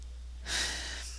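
A single deep breath, a soft airy inhale lasting under a second, taken during a calm opening invocation. It is faint, over a low steady hum.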